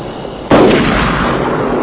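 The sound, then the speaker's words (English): A single loud gunshot blast bursts in suddenly over a low background noise, followed by a sustained rumbling roar that lingers to the end. “What are you shooting at over there?”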